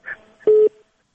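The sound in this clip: Telephone busy tone after a call is cut off: a single loud, steady mid-pitched beep that trails into a fainter held tone, preceded by a brief faint sound.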